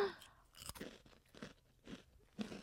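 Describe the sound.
Crisp crunching of Chicken in a Biskit crackers, an Australian snack, bitten and chewed in several sharp, separate crunches with quieter chewing between them, close and soft, with no talk.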